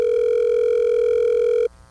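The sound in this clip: A telephone ringing tone heard while waiting for someone to answer: one steady, loud, buzzing tone lasting under two seconds, then cutting off to a low hum.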